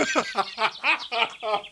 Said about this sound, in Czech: Takhle zpívá po ránu. A my dva úplně blbci už víme, že to není kuň, ale že to je pták.